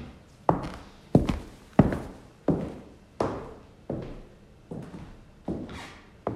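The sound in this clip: Footsteps of a girl walking through the halls: nine slow, evenly spaced, firm heel strikes, each a sharp thud with a brief decaying tail, heard alone.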